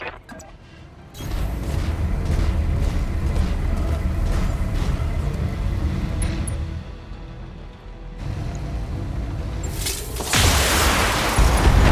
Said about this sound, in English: So we're going to shoot out the turrets because I'm sure we'll get extra money for doing it.